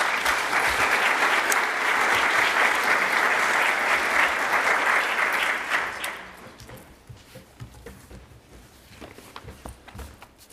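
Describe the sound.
A church audience applauds to welcome a guest being interviewed during a service as she comes forward. Loud, sustained clapping lasts about six seconds, then fades into quieter rustling and scattered sounds.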